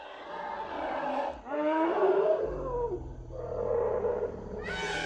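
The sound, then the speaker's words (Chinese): An elephant calls out after being fed: long, loud, wavering tonal cries, joined midway by a deep steady rumble underneath, ending with a higher, rising squeal. No voices. “可算叫了，这大象，终于啊！”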